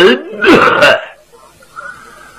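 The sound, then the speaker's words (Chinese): Someone clears their throat with a short cough: a couple of quick, rough, voiced bursts close together, followed by near quiet. “先咳嗽了一声”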